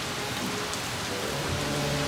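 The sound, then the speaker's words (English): Heavy rain from a storm at sea pours steadily around a ship. It makes a dense, continuous hiss with low rumbling underneath and no voices. “There is a storm outside and the ship is going to be torn apart.”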